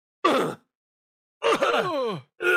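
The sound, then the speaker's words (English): A voice imitates a video game character's pained gasp on being hit: a short strained gasp, then a longer groaning breath with sliding pitch, then the start of a third cut off at the end. “every time someone gets hit in a game, you may not even notice you hear it, but there's a thing called an effort that takes place there where the player gasps”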